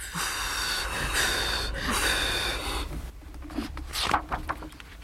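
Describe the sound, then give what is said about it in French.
A person blows hard to put out a burning book, making breathy gusts of air for about three seconds, then shorter, softer puffs and breaths. “On doit souffler. Aide-moi à souffler, dit la grande personne.”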